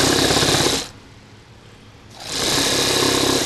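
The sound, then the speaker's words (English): Old sewing machines stitching fur coats run with a steady, dense mechanical whir, stop for about a second, then start up again at the same even drone. “Upstairs from the shop, a small staff makes and repairs fur coats on sewing machines that look like they haven't changed since statehood.”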